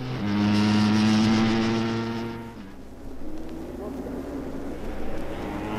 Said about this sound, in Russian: Кажется, заглох двигатель. Пытается завести. Да, вот и они уехали.